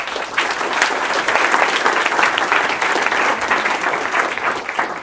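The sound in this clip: Audience applause welcoming a speaker to a Stanford talk, a thick, continuous wash of clapping from many hands that holds steady for several seconds with no talking over it.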